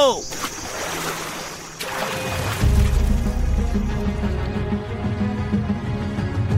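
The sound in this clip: Water washes around a long, narrow wooden boat crammed with about fifty people as it sets off quietly in darkness. A brief swish comes first, then a steady low rumble of moving water.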